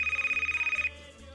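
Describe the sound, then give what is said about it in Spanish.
Telephone ringing for an international call, a rapid pulsing electronic trill with a bright tone that repeats quickly for just under a second and then stops, leaving a faint low hum. “Vamos allá con la llamada. Es un poco complicada, yo os pido concentración porque estas llamadas internacionales...”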